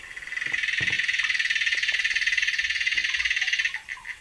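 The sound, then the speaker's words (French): An aquatic bug stridulating underwater, picked up by a hydrophone: a continuous high-pitched buzzing trill of rapid, regular pulses that holds steady, then breaks into a few separate chirps at the end, with faint low knocks underneath. “Voilà, c'est une vraie cigale, c'est incroyable. Hein. Et en fait, c'est une punaise aquatique.”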